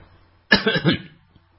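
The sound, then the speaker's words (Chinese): A single loud, forceful cough from a person, one harsh burst with a few rough pulses, clear and alone against quiet. “背后猛不丁一声粗壮有力的咳嗽让他急缩手惊回首”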